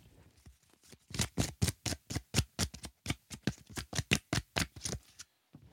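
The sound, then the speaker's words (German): Tarot cards being shuffled: many crisp, rapid bursts in a steady rhythm, loud and alone, stopping just before the end. “Ich würde die Karten noch einmal ganz kurz mischen.”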